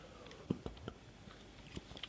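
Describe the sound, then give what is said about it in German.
Faint biting and chewing on something blackcurrant-flavoured: a few soft, crunchy clicks scattered across an otherwise quiet stretch. “Die Lömmelöm Johannisbeer schmeckt frugal.”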